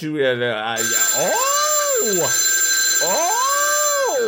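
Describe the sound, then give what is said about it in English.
A novelty telephone ringtone plays loudly with a wailing, meow-like tone that swoops up and down twice over a steady high whine. “Big Fatty, normally I'd be afraid of that death phone, but you know it's that damn Vader calling again”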